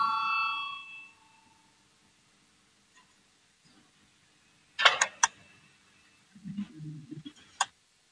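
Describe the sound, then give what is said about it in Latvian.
A ringing bell in a parliament chamber, called before a vote, sounds for about a second with a bright, sustained tone. Quiet follows, then a few sharp clicks and some low shuffling noise. “Lūdzu zvanu, balsosim par 237.”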